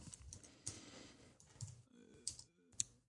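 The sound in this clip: Keys tapped on a computer keyboard to enter a short security code: a few faint, sparse clicks spaced irregularly.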